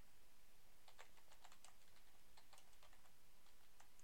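Rapid keyboard typing as someone notes down a list of movies to see, quick irregular clicks coming in short bursts over a steady background hiss, faint and without talk.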